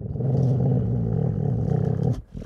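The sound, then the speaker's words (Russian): A wolf growls with ears pinned back and fangs bared while being forced into a bath. The growl is a loud, low, rumbling snarl held for about two seconds, then cut off abruptly. “«Не рыкай!» – холодно отрезала, подступая ближе.”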